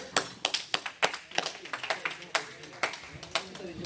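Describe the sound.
Scattered applause from a small audience at a club meeting, a few pairs of hands clapping in sharp, irregular bursts that never merge into a full roar and stay fairly quiet throughout.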